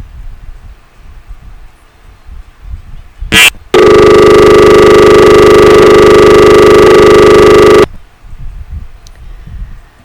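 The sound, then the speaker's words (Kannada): An electronic telephone tone signals an incoming call, with a brief sharp beep followed by a loud, steady, buzzy tone held for about four seconds before cutting off abruptly over a low background murmur. “ಕರೆ ಬರ್ತಾ ಇದೆ.”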